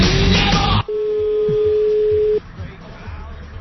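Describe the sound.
A phone call rings unanswered: after a brief burst of loud voice, a single steady mid-pitched ringback tone holds for about one and a half seconds, followed by faint taps on the quiet line.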